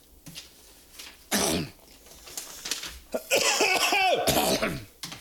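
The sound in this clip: A few harsh coughs mixed with throat clearing. One sharp burst comes first, then a louder, rougher cluster follows toward the end.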